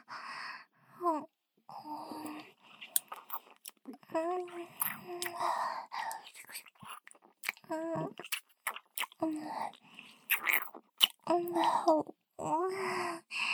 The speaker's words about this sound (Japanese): 最初は、キス。いっぱい、ベロぐちゃぐちゃさせよう。